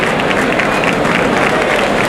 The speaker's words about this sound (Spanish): El toro. El público que aplaude la estampa.